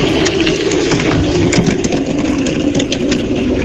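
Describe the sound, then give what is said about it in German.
A soapbox car crossing the finish line of a race and braking hard, heard as a loud, continuous rolling roar with a dense gritty texture that stays fairly even throughout, with no distinct separate events. “das ist das Geräusch von einer Seifenkiste, die ins Ziel einfährt und bremst.”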